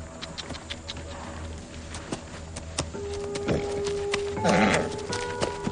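Hooves clip-clop in an irregular rhythm as horses set off in a western film, with a brief whinny rising partway through and a low background hum underneath.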